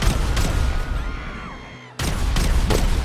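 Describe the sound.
Pistol gunfire in a video game, a few sharp shots cracking over a busy noise bed, which briefly drops away before a loud burst returns.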